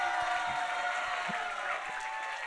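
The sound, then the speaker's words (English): An audience welcomes a speaker with applause and cheering, an even, moderately quiet wash of clapping and crowd noise that stays steady throughout. “And so let's give a big Fire and Fragrance welcome.”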